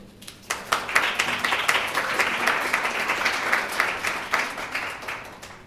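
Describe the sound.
Audience applause at Cape Bible Chapel welcoming a married couple who lead the counseling ministry, before a talk on marriage. Many hands clap in a steady, moderately loud wash lasting about five seconds.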